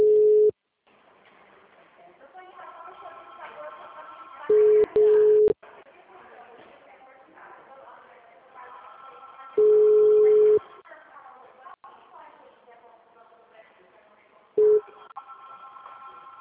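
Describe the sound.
Ringback tones while redialing a phone call that went silent. A steady mid-pitched beep about a second long repeats roughly every five seconds, four times in all, with faint background sound continuing between the beeps.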